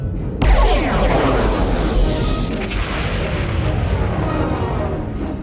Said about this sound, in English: They are relentless. The Borg ship is firing.